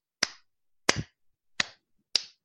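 Four sharp hand claps ring out alone in an uneven, irregular rhythm. Each is a crisp, bright smack with a short decaying tail, separated by silences of differing length.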